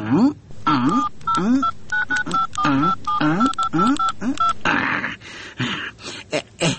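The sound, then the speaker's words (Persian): Telephone keypad tones ring out as a number is dialed, a series of short, steady electronic beeps at irregular spacing, with people talking over them. “تو باش که زنگ بزنم.”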